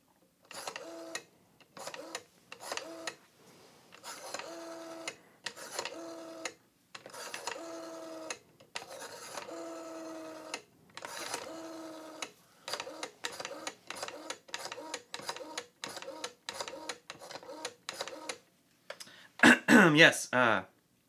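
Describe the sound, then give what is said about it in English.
A telephone number is dialed for a trunk-to-trunk collect call: a long run of many short, buzzy tone bursts in fairly regular groups. They are separated by brief gaps and end in a louder, harsher burst. “Yes, I'd like to place a trunk-to-trunk collect call. Yes, that's why I dialed all those numbers.”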